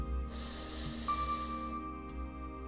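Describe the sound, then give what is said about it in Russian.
A deep inhale through the nose, a soft airy hiss lasting just over a second, faint over a low steady hum. “Сделаем глубокий вдох через нос.”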